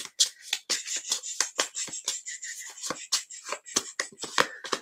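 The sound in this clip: A deck of cards being shuffled: a fairly faint stream of crisp, papery riffles and slaps in quick, irregular bursts.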